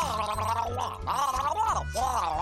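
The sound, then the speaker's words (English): Throaty gargling, a few wavering, voiced gurgles with bubbly, warbling pitch, broken by brief pauses and heard alone. “I don't speak gargle. What is going on? Gargling.”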